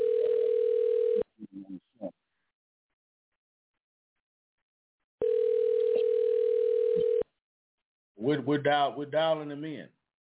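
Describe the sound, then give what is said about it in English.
Telephone ringback tone while a call is placed: two long, steady buzzes separated by silence, with a few brief clicks between them, then a voice speaking. “we're dialing him in. So hopefully he'll pick up for us. If not, I'm only gonna let it ring three times.”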